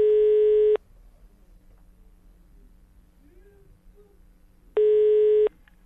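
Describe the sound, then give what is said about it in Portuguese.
Ringback tone of an outgoing phone call: two steady buzzing ring tones, each under a second long, separated by about four seconds of low hiss on the line. “Então nós vamos ligar agora pra Maria Copinho. Vamos ver aqui o desmantelo. Vamos lá, liga aí, meu filho, liga, vai.”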